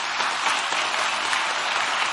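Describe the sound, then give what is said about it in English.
An audience claps steadily as people come up one by one to stand in a line. The applause is loud, dense and continuous, with no clear breaks. “You guys can applaud him as they come up.”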